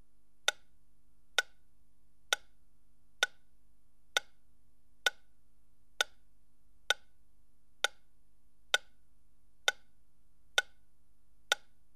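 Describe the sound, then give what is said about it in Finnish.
Metronome ticking from the left front speaker in a surround speaker test: thirteen sharp, evenly spaced ticks about one per second, quiet and alone over faint hiss. “Metronomin tikityksen pitäisi nyt kuulua vasemmasta etukaiuttimesta.”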